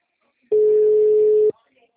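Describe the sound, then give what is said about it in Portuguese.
Telephone line tone after a dropped call: a single steady, mid-pitched beep about one second long, sounding alone against near silence. “caiu a ligação”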